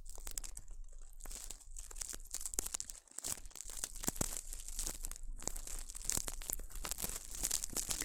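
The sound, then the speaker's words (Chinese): Soft, continuous scratching and crinkling from ear cleaning with a makeshift pick of folded, twisted hair, steady and fairly quiet throughout, with brief pauses and no talking. “拧到一起，看，这就是简易的头发耳勺了。先试一下。”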